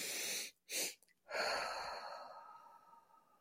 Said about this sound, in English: you're filling up your lungs with the first breath and then working a little harder to make sure they're completely filled with that second quick breath. And then you are exhaling a longer exhalation. So it kind of goes like this.